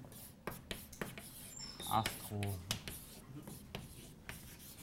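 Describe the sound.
Chalk or marker strokes on a board in a lecture hall: many quick, scratchy rubbing strokes in an uneven rhythm, moderately loud, with a few sharper taps where the writing pauses and restarts.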